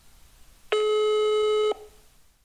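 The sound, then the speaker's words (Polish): A single steady, buzzy electronic telephone tone sounds for about one second as a phone call reaches Plus network voicemail, with quiet background before and after. “Poczta głosowa plusa.”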